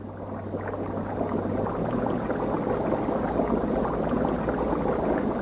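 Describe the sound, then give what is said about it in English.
A pot of food simmers gently on a stove burner turned down to low, giving a steady, soft bubbling hiss that keeps an even level from start to finish. “After chopping, seasoning, bringing it to a boil, you turn down the burner to low and go sit at the kitchen table while it gently simmers.”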